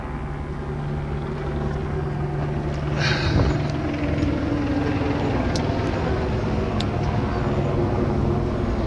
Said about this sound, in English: this helicopter's, like, circling right up here.